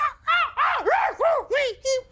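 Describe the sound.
A voice imitates a Cliff Beast swooping down with a rapid series of about seven harsh, crow-like screeching cries, each arching up and down in pitch, loud and separated by short gaps.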